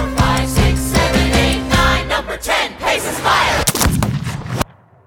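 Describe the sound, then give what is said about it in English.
A gunshot sound effect, reversed and choked, marks a duel scene in a stage musical. It swells up out of punchy band music with rhythmic hits, then cuts off abruptly into near silence. “The gunshot is actually reversed and choked so that we get the sense that we've stopped that bullet”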